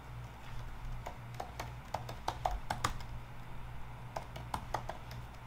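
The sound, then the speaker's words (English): Typing on a computer keyboard, with many quick, irregular key clicks tapping over a low, steady hum, some strokes sharper and louder than others. “So I'm just going to type in here when were.”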